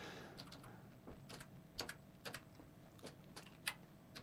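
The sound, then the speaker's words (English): Slow, hesitant typing on a computer keyboard: a sparse run of faint, sharp key clicks with uneven pauses between them. “If I can get it typed in fast enough. Savage Garden. Yes, I can. I'll type that in and let's see if I can get the title of the song.”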